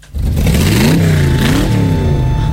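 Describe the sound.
A 4x4 off-road vehicle's engine revs loudly and steadily, its pitch climbing in a few rising surges before settling again. The growl holds on alone to the end.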